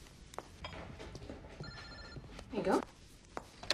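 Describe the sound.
A telephone rings faintly under people talking, with a short stretch of steady ringing tones among other soft clatter.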